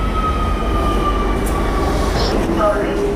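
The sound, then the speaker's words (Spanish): Underground metro train running along its line: a continuous loud rumble and rattle with thin, whining squeal tones that persist throughout. “Y qué mejor lugar para preguntarlo que el propio metro.”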